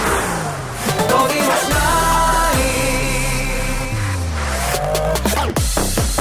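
A car speeds away in a sound effect, the engine revving loudly and continuously with shifting, sliding engine pitch throughout.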